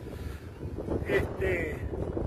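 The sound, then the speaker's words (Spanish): Strong wind blows across a farm on a cloudy day, buffeting the microphone in a continuous low rumble with gusts that swell and ease. “feo día hoy, un poco nublado, mucho viento.”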